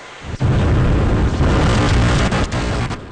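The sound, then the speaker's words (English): A SpaceX Starship, a huge stainless steel rocket, roars at launch: a loud, continuous, crackling roar that fills the whole range and sounds overloaded and distorted, with a few sharper pops inside it. “It's this huge stainless steel machine. It's the biggest rocket ever built. It's so big that when it took off, it kind of broke the microphones.”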